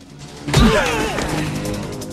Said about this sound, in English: Chad raises his fists, and they circle before Chad kicks out.